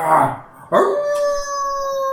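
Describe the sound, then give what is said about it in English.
An echoing, wolf-like howl: a sustained, tonal cry with clear harmonics that holds a steady pitch and slowly trails off, preceded by a brief, noisy yelp-like burst. “and then you hear, like, an echo of howls”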